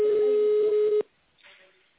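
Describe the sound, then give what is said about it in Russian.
A steady telephone line tone, heard while dialing an office extension in tone mode, holds one pitch for about a second and then cuts off sharply. Only a faint, brief murmur follows. “Если вы знаете внутренний номер абонента, то наберите его в тональном режиме”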